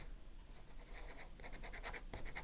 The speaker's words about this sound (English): Let me just grade this show. I'm going to write down a grade, and